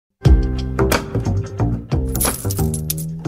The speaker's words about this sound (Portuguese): Este é o som da boa moeda, má moeda das manhãs 360 e hoje temos duas boas moedas.